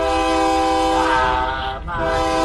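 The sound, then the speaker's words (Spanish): A train horn blares in a long, steady harmonic tone over low rail rumble as a train departs, dipping briefly near the end before sounding loud again. “Ah, ya se te fue el tren, se va el tren.”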